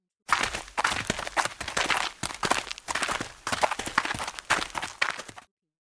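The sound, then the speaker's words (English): Footsteps of people heading out for a winter walk, many brisk, rhythmic steps in an unbroken run that start suddenly and stop just as sharply. “It is winter. We go out for a walk.”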